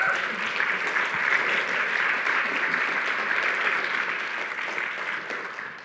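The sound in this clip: A church audience applauds to welcome a guest speaker: a dense, even wash of clapping that holds steady for several seconds and then gradually tapers off.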